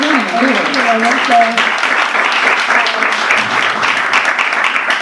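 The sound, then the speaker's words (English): Audience applause for a person, a dense, continuous crackle of many hands clapping throughout, with a voice briefly heard over the first second or so. “Let's give her a round of applause for”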